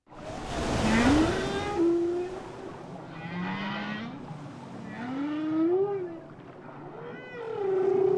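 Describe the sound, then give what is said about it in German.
A whale sings in long tonal moans that glide up and down in pitch, some rising into higher squeals. The calls sit over a steady low watery rumble that runs throughout. “man hört da so Wasser im Hintergrund. Wassergeräusche dazu. Walgesänge.”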